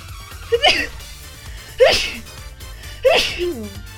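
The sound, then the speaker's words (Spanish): A person sneezes three times in a row, each a loud, sharp burst with a short intake before it, spaced at fairly even intervals with quiet between. “Ahí voy a estornudar, permítanme.”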